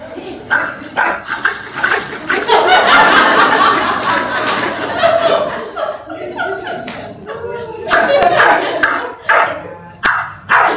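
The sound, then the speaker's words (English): A dog snarls and barks while guarding its food bowl from another dog that wants to get to the food, with loud, irregular bursts of growly barking and whimpering. “So there's food over here. So the dog is actually guarding food. Can you see the bowl? Yeah? Okay. And so the other dog really wants to get to the food,”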